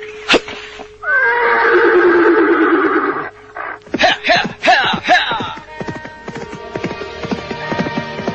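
A horse neighs in a long, loud, wavering whinny lasting a couple of seconds, followed by several shorter, choppier neighs and snorts of varying loudness that fade into lighter rustling.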